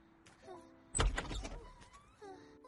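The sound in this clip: A door being opened with a sudden clunk and a brief rattling scrape, set among faint tonal sounds before and after.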